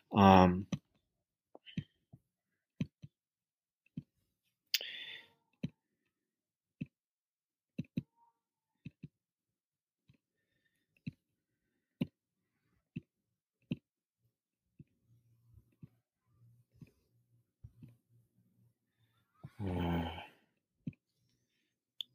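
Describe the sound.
Many soft computer mouse clicks come in an irregular series as browser tabs are closed on a computer. They are faint and sharp. Brief bits of voice appear at the start, near the middle and toward the end.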